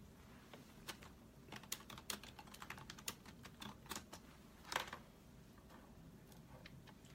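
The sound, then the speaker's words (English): Typing on a computer keyboard: many light, quick key clicks in an irregular rhythm, faint and continuous throughout. “Let me type it in here.”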